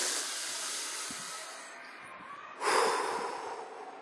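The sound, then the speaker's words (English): A single deep breath taken during a guided relaxation exercise: a soft, airy rush that swells into a louder burst of breath near the end, with no voices. “Deep breath.”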